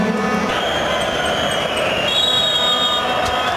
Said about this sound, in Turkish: François Le Texier'den son düdük sesi geliyor